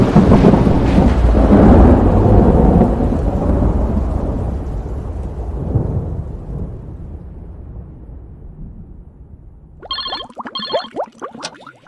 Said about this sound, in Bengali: সাথে সাথেই বাজ পড়ার প্রচণ্ড আওয়াজে কেঁপে উঠল চারপাশ।